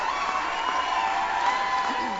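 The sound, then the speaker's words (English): A rowdy crowd cheering at a political speech, a dense and continuous roar of voices and applause that holds steady throughout. “Thank you so much. Very rowdy group.”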